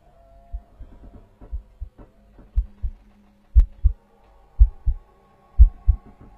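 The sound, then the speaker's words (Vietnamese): A heartbeat pounds in the chest as low, muffled lub-dub thumps in pairs, about one beat per second for six beats. The thumps grow louder over the first few beats above a faint hum. “An Hùng mơ hồ nghe tiếng quả tim của mình đang đập thình thịch ở trong lồng ngực.”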